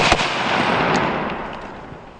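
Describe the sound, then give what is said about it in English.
Gunfire during a military combined arms live fire exercise comes as a loud, dense crackling roar with no clearly separate shots, slowly fading over about two seconds. “Division Air Assault conduct a combined arms live fire exercise.”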